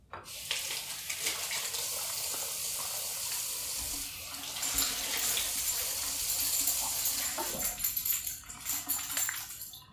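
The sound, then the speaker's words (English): Water runs steadily from a faucet as berries are rinsed for gluten-free crepes, a continuous bright hiss and splash that grows a little louder after the midpoint, with no talking. “So we're going to wash the berries and then we're going to start assembling our crepes.”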